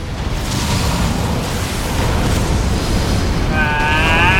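Loud, dense explosive roaring from fireballs bursting in a video game amid fire everywhere, a continuous heavy rumble with no clear gaps, joined near the end by bright warbling tonal effects.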